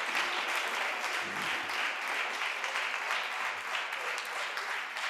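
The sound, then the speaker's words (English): Many hands clap together in praise of Jesus Christ, a dense, continuous patter of applause that stays fairly even in loudness across the whole stretch. “Clap, clap, clap hands for Jesus Christ.”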